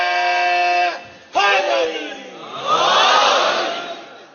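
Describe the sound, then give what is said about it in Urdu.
A crowd chants the Naara-e-Haidri slogan at a religious gathering. A lone voice calls out twice, the second call dropping in pitch. A broad, loud crowd roar then answers and holds to the end. “مل کے ایک نعرہ حیدری کہیے گا تمہیں طاقت آ جائے”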